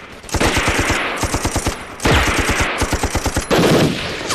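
A heavy machine gun fires three sustained, loud bursts of rapid, evenly spaced shots. Each burst runs for over a second, with hardly any pause between them.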